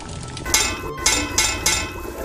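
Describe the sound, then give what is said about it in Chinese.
A few sharp metallic taps sound on the rim of a cooking pot, a cauldron of sour soup with fried fish, over a steady loud sizzling and bubbling background. “您最后敲两下这个锅边是什么意思？”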